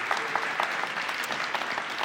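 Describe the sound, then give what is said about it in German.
A church audience applauds to welcome members. The clapping is dense and steady and carries evenly throughout, with no voices standing out. “So, und das ist ein, ja, so Applaus, ja.”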